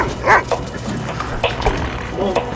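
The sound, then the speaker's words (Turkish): A dog barking and yipping in a few sharp, quick bursts, with people talking loudly and excitedly around it. “Köpek geliyor la.”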